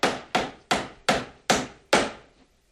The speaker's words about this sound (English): Scott hammers boards onto the broken laundry room door.